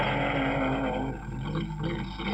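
Engine roar of a 3.8-litre Jaguar drag car doing a burnout through bleach at a drag race. A loud, steady, droning engine note dips slightly midway and then builds again.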